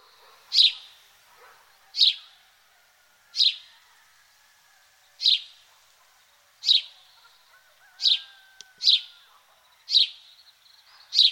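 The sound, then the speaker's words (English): Calls of a hooded merganser: a regular series of sharp, high-pitched notes, each brief and clear, repeated about every second and a half against near silence. “Hooded merganser.”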